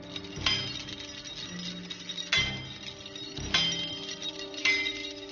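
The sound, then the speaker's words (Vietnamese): Sharp metal knife blades fixed on a net clang four times. Each bright metallic strike rings out with a slowly fading tail, and the strikes are spaced a second or more apart, with no voices. “Những mũi dao trên tấm lưới loảng xoảng liên hồi”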